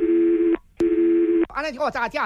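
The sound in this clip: Telephone line tone while a call is being transferred: two long, steady mid-pitched beeps separated by a short gap, followed by a voice.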